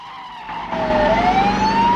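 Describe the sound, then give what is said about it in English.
Car chase with a police squad car in pursuit through traffic: a loud, steady engine roar joined by a whining, siren-like tone that climbs in pitch and grows louder toward the end. “Bond weaves through traffic with the squad car on his tail.”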